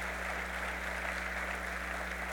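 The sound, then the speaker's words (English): Audience applause at a city council event in Buffalo, a steady, even patter of clapping that holds a constant level throughout, fairly faint over a low electrical hum. “Let's give them a round of applause on that.”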